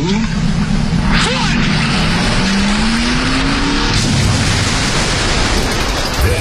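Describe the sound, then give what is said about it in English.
Car engine revving with squealing tires as the car is driven toward a lake in a scene from the 1970s film Billy Jack; the loud engine tone climbs in pitch while people talk. “When I count to three, drive your car in the lake.”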